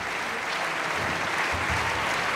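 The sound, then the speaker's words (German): Applause from a theatre audience for performers on stage: a dense, continuous wash of clapping that stays at a steady level throughout, with no distinct voices. “und großer Jubel für Peter Hoar, den Herrn Brautschek.”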